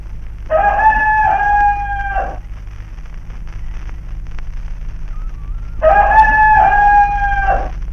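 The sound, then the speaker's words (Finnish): A rooster crows twice, the call used to open morning radio. Each crow is a long, loud, harmonic cry lasting close to two seconds, separated by a pause of several seconds, over a steady low hum. “Radion aamun aloittava kukko on jäänyt eläkkeelle jo kahdesti. Ensimmäisen kerran kukon kiekaisut lopetettiin syyskuussa 1963.”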